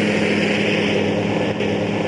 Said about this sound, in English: A drone takes off after a 700-meter crawl on the ground.